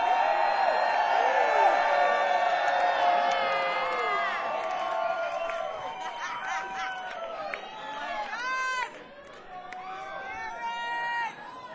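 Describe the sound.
An audience at a live music show cheers for a performer, opening with loud high whoops and screams over a roar of voices, then easing into steady cheering with scattered whoops toward the end.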